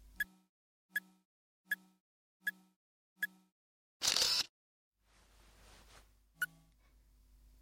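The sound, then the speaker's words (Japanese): A camera on self-timer gives five short, evenly spaced beeps about a second apart, then a brief, loud shutter burst. A faint hiss follows, then one more beep. “うん、いい写真撮れた。”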